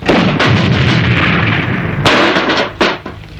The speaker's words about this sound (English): this is a multi-caliber gun with a built-in radio, automatic rifle, and this is a grenade launcher.